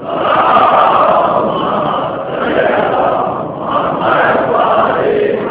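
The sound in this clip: An audience chants religious slogans in unison at a majlis gathering. The massed voices roar loud and continuous, swelling and dipping slightly in waves, and sound muffled and dull.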